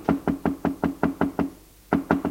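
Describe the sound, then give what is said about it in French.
Knocking on a bedroom door: eight quick, evenly spaced raps, a brief pause, then two more, each knock dull and moderately loud with no voices. “Le lendemain matin, il frappe à la porte de la chambre d'Aurore.”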